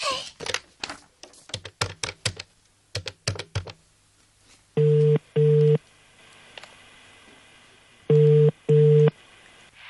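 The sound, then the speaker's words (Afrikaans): Telephone call tones as a call is placed: a quick run of clicky button presses, then ringing tones in two pairs of steady, buzzing double beeps separated by quiet pauses. “Kom ons bel vir Sari en dan praat jy met haar”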